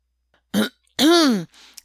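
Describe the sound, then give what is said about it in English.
A man clears his throat, an auction MC at a bidding sale. There are two short vocal bursts: a brief rasp, then a longer voiced 'ahem' whose pitch rises and falls, followed by a faint breath. “The MC clears his throat.”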